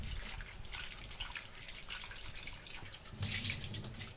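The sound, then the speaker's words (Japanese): Tap water running over cherry tomatoes with their stems removed, a continuous hiss and splash that surges louder near the end. “ミニトマトはヘタを取ってから洗います。ヘタの周り結構汚れがついているので、ヘタを取ってからお水で洗います。”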